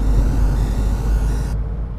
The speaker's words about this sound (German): Allerdings dringt das feine Piano Pianissimo nicht durch die Kulisse aus Motor, Wind und Reifengeräuschen sowie dem Rauschen des Gebläses.